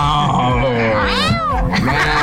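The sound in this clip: A human voice imitates a lion's roar, but it comes out as a single drawn-out, meow-like cry that rises and falls over a steady background.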